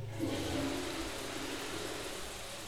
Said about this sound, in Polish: Po drodze zaszedłem do łazienki. Mogę puścić wodę.